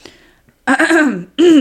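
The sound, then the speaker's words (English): Throat clearing by one person: a soft breathy rasp, then two short, loud voiced throat-clearing bursts in quick succession, with nothing else heard. “Sorry, I have to clear my throat for my close-up.”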